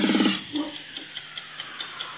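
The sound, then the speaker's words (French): A clock ticks in a steady, quick rhythm of light, sharp clicks, following a brief loud tonal burst at the start. “Oui, ça, c'était un tic-tac, quoi. Voilà. Et ça annonce la fin du devoir.”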